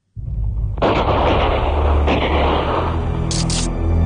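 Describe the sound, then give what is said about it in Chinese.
Gunfire erupts abruptly as a soldier shoots until the bullets run out, ending with a handgun. The loud, dense, roaring barrage runs without a break, with occasional sharper bursts standing out. “子弹终于打没了”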